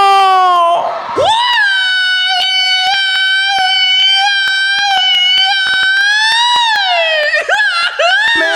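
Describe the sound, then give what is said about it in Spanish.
A grito rings out at a party as a long, high, sustained yell. Its pitch swoops up sharply at the start, wavers as it is held for several seconds, and breaks into shorter cries near the end. “Aguántame, güey, que se oiga ese pinche grito.”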